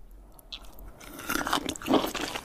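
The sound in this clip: Crisp, crunchy chewing of cold-dressed chicken in sauce, with a run of moist bites and crunches that grow louder toward the end and no talk over them.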